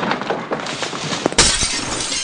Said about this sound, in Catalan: Quin desastre! L'urna de vidre s'ha trencat.